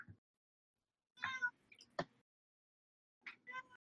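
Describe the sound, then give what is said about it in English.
A cat gives a couple of short, harmonic meows separated by a pause, faint and alone, with a sharp click between them. “Who's meowing? That's my cat.”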